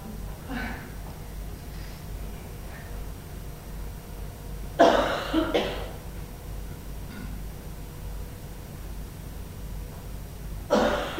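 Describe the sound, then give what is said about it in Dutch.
Coughs: a few short, harsh bursts of coughing spaced apart over a faint, steady background, each one abrupt and breathy. “Je mag best hoesten”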